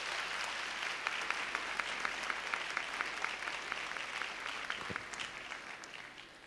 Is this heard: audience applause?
yes

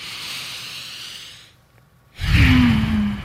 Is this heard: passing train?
no

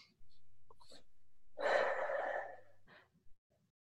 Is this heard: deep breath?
yes

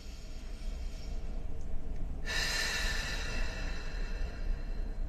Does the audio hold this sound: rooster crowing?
no

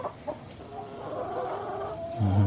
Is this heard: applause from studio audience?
no

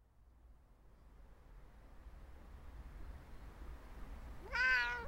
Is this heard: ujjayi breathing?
no

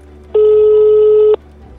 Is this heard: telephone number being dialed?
yes

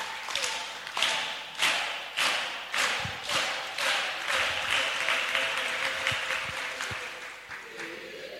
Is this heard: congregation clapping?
yes

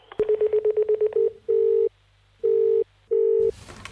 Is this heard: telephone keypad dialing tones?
yes

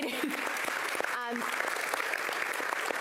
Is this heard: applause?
yes

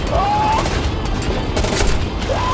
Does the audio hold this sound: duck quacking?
no

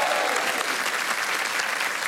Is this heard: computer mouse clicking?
no

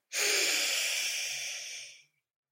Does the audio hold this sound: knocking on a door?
no

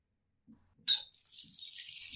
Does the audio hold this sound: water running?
yes

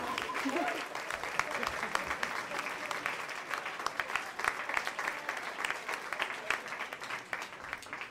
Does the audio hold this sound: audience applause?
yes

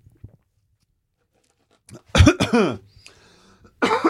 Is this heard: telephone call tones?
no

